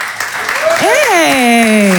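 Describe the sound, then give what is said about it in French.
Audience applause and whooping cheers from teachers at an evening show, with dense, loud clapping throughout. Rising and falling vocal whoops sound over the clapping. “Il y a peut-être des profs dans la salle ce soir par applaudissement ?”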